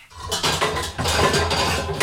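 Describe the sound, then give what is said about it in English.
A cooking pot being taken out and handled in a kitchen, with busy metallic clanking and clattering of pots, pans and utensils running through two seconds, no voices. “So let me get my pot out.”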